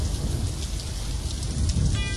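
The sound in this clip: Heavy, steady rain with a low thunder-like rumble, from the opening of a rock song recording. Dense, continuous hiss plays alone without voices.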